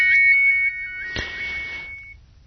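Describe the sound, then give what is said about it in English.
A mobile phone ringtone: a bright electronic melody of quick repeating high tones, then a held high tone with a sharp click partway through, fading out before the end. “it's pretty cool when your phone goes off ringing like that”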